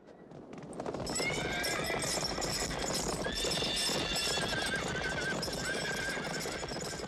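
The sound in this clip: Horses galloping with hooves clattering in a dense, rapid, unbroken stream, swelling to full loudness after the first second, while high whinnies and neighs cut through the drumming hoofbeats.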